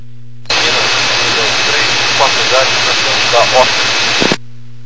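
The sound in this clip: A jet aircraft engine roars during takeoff, a steady, loud, band-limited roar over a radio channel that starts abruptly and cuts off, with slight swells and a voice faintly present.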